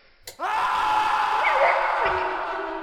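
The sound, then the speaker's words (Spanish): A man's shrill, sustained scream in a horror tale as something is found lying on the floor among overturned tables and chairs. It bursts in loudly after a brief knock and holds strong, wavering and harsh, for over two seconds. “Uno de los tres hombres, cuál no se sabe, profirió un estridente alarido”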